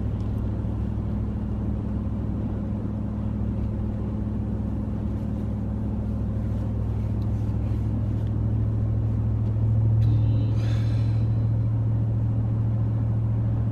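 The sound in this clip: A car engine gives a low, steady rumble while driving in a traffic jam. The drone is continuous and unchanging throughout, with no voices.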